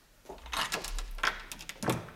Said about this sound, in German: So, mach auf, aber leg die Kette wieder vor.